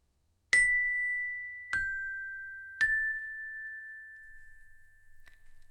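A small bell is struck three times in quick succession. Each strike rings out with a bright, clear tone that lingers and slowly decays, and the ringing stays fairly quiet throughout.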